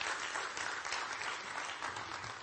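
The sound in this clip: Applause from a church audience celebrating a member, a dense, steady wash of clapping that fills the whole moment at an even level, with no single voice standing out.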